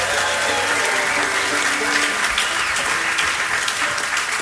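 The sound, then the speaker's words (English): A concert audience claps for the sound engineer at a fiddle and singing show. Steady, loud applause fills the whole stretch without a break. “How about a hand for Elijah Doty on the sound, everybody?”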